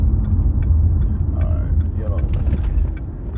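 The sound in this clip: Car engine rumbling while driving, a steady low drone that holds at an even level throughout the short stretch.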